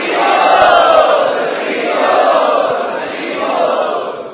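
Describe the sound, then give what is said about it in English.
An audience chants loudly in welcome of guests at an evening gathering, a dense roar of many voices that swells and eases in three broad waves. “Let us welcome all of them by loudly chanting.”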